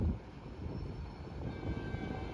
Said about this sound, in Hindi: सामने से आ रही है 104 डाउन सुबह खराम रेल कार, जिसको GU20 लीड कार है 4566